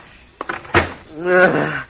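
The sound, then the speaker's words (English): A door is pushed shut to keep out a storm, giving a couple of sharp wooden knocks and a thud, followed by a longer tonal sound. “Close the door”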